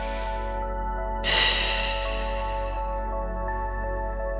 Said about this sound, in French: Inspirez, puis soufflez.